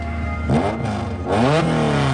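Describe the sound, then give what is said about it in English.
Racing cars rev hard during a street race, their engines said to carry over 100 grand of hardware; the loud engine note climbs in pitch twice in quick succession as the cars surge off together. “The cars speed away together, raising a trail of dust.”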